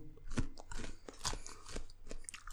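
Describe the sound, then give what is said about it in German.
Chewing and crunching as a person eats, with irregular crisp bites and mouth noises at moderate loudness and no talk. “Ich muss jetzt nochmal kurz was essen.”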